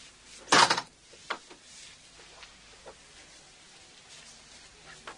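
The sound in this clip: A door slamming shut in a home: one sharp, loud bang near the start, then only faint scattered ticks and quiet background.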